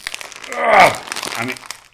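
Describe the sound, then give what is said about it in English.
A crisp packet crinkles and rustles as it is opened with scissors. The crackling rises to a peak and then settles, with a voice briefly alongside. “You've got some scissors. You're opening your bag with the scissors.”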